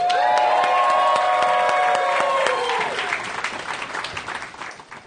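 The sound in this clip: Audience applause and cheering for a comic being introduced at a comedy show: loud, dense clapping with whoops and shouts at first, then the clapping thins out and fades toward the end.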